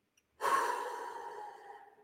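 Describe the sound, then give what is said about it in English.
A single deep exhale during a guided breathing exercise: a soft, breathy rush that starts abruptly and slowly fades over more than a second and a half, with no talk. “Let's inhale. Exhale.”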